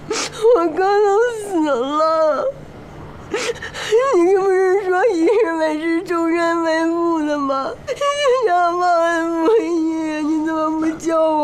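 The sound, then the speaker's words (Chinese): A child crying and wailing over the death of an older brother, long tremulous sobbing cries that run for several seconds with brief catches of breath, partly sobbed through words. “你别哭，别哭了。”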